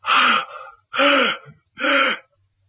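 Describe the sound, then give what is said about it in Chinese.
Heavy, strained gasping for breath from an old man in a dramatized story, gulping air after forcing out a few words. Three loud, voiced, evenly spaced gasps, each a rasping groan-like heave, with short silences between them. “勉强说这么几句话，大口大口就喘气。”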